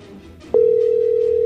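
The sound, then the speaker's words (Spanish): A phone's electronic calling tone sounds as a WhatsApp call is placed. A single loud, steady tone cuts in partway through after a quiet, murmuring background, then holds unbroken to the end. “Le estamos marcando por WhatsApp ahora.”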